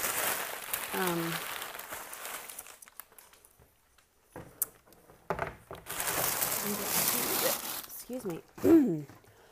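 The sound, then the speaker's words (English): Packing paper rustles and crinkles as it is pulled out of a cardboard box that held a baby swing. Two long noisy stretches are separated by quieter shuffling, and short vocal sounds are heard. “Okay, so the box that I put the swing in, or had the swing in, I'm going to take all this paper out so that I can use it for”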